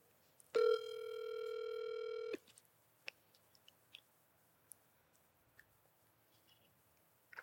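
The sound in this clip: A telephone ringback tone sounds while someone is being called: one long, steady electronic tone of nearly two seconds, followed by faint scattered clicks in near silence.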